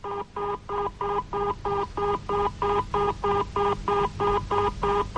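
Telephone number being dialed for a call: many evenly spaced two-tone beeps in a steady, regular rhythm, each short and equally loud, with no voices.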